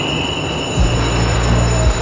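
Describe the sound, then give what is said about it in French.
A train at a railway station platform gives a steady mechanical hum with a high whine. A deep low rumble swells in partway through and continues, with no voices. “On est sur un quai de gare.”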